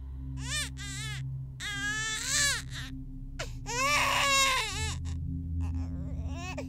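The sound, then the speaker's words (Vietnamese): A newborn baby cries shrilly in several piercing, wavering wails, each burst rising and falling in pitch, with short breaths between them. “Âm thanh xé vải vang lên, ấy là tiếng khóc, tiếng khóc của một đứa trẻ sơ sinh. Nó khóc như xé vải, đanh tai.”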